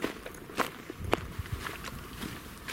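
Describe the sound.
Footsteps of a person walking, with a few soft, irregular steps and light scuffs over a quiet background.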